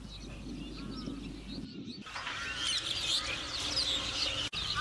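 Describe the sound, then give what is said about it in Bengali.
Herons calling at a garbage dump where birds feed on refuse: faint, scattered chirps and calls over a steady outdoor hiss, with the ambience cutting abruptly partway through. “সেখানে প্রতিদিন শত শত বক জীবন বাঁচাতে গ্রহণ করছে বিষাক্ত ময়লা আবর্জনা।”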